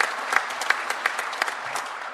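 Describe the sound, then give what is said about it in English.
Audience applause follows a speech on farm and environmental policy: scattered, fairly light claps with a few sharper hand slaps, steady for a couple of seconds before easing slightly. “I think that's worth an applause, too.”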